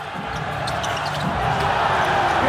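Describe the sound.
A basketball bouncing during Chen Linjian's shooting practice, a few dull thumps over a steady background murmur.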